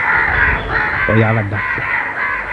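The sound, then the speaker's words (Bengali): Crows caw in a short, harsh, nasal burst that rises out of a steady, noisy background, then the background continues alone. “ওই আবার ডাক, এত কাক তো এখানে কখনো ডাকে না, কি হলো?”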